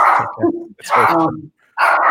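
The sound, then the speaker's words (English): A female dog barks loudly in three bursts separated by short silences, each burst made of rough, full-throated barks. “So that's my dog.”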